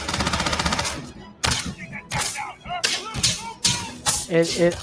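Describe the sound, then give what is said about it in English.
Gunfire from a shooter video game set in a building opens with a rapid rattling burst, then breaks into several separate sharp shots, with a voice talking over the later part. “Oh, listen to the sound of that. There it is, guys. So we got a shooter type game here. There's a shooter in the building.”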